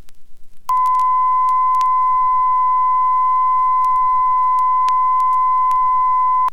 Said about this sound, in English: velocity 5 centimeters per second, frequency 1000 hertz. Right channel, standard recording level.